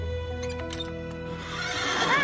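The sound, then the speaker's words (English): A horse whinnies near the end with a wavering, high neigh, heard over a steady low hum after it is approached at a neighbour's property. “I saw a horse at the Rathbone place. I stopped to take a look.”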